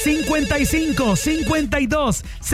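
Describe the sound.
An incoming call ringing on a radio call-in show: a loud, bright, melodic ringtone of rapid, short falling chirps repeating in a quick, bouncy rhythm.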